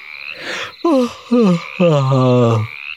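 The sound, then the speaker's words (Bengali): A person yawning, a loud, drawn-out voiced groan broken into a few breathy segments. The early ones slide downward in pitch and the last stretches out longer and steadier before trailing off. “High তুলল”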